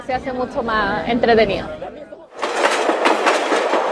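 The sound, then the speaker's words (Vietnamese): Voices chatter before a vintage 1920s passenger train takes over, running with a broad, steady rumble and rattle through to the end. “được đi trên một chuyến tàu có từ những năm 1920”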